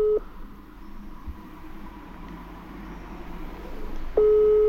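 Ringback tone of a telephone call ringing unanswered: a steady low beep cuts off at the very start, then a long quiet gap with faint background hiss before the next tone begins near the end.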